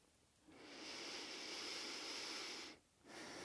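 Soft, airy breathing in and out through the nose during a gentle seated yoga twist in an at-home spa routine: one long breath, a short pause, then another breath begins.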